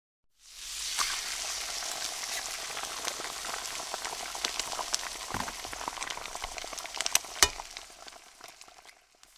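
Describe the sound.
Pancake batter of flour, eggs and milk sizzles in a frying pan: a steady, dense hiss with crackles and a few sharper pops throughout, with no voices.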